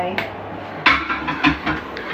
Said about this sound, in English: Exciting times, listeners. The cake's coming out of the oven.